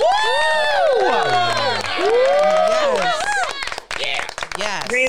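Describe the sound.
An audience cheers and applauds for a co-host, with loud, high, wavering whoops and shouts from many voices, and bursts of clapping joining in toward the end.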